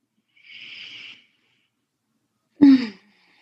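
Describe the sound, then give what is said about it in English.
Two deep breaths: a soft, airy hiss of an inhale, a silent pause, then a shorter, louder exhale with a faint voiced sigh. “Taking a few deep breaths.”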